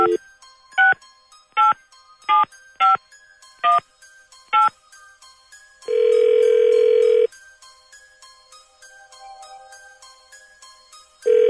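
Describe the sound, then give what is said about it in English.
A telephone number dialed at random on a touch-tone keypad: seven short electronic beeps of varying pitch in an uneven rhythm, then one long, steady ring tone and a quiet pause before another tone begins. “let's find out. Dialing at random.”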